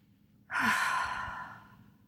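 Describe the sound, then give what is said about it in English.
A single long, deep exhale, heard as an audible sigh during a guided relaxation exercise. The rush of breath starts abruptly, stays full and airy, then fades gradually over about a second and a half with no talking. “Take a deep breath in and breathe out.”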